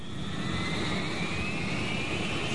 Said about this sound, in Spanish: Durante el despegue, el avión no presenta ningún problema.